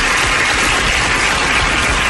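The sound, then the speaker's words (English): A crowd cheers and applauds loudly to welcome a host onto a stage show, a dense, continuous roar of clapping and shouting that holds steady for about two seconds. “Crowd goes wild.”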